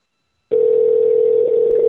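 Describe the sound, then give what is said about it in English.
Telephone ringback tone from an unanswered call: one steady, mid-pitched tone that starts abruptly after a brief silence and holds unbroken to the end. “That beautiful, but it's just ringing.”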